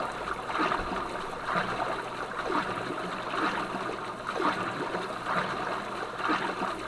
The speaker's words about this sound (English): We can cope with this. We're swimming across.